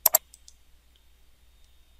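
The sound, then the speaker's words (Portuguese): Two sharp mouse clicks land in quick succession as a link is clicked while configuring a server on a computer, followed by a few much fainter ticks against near silence. “Num passo bem simples, vou clicar no link Complete DHCP Configuration”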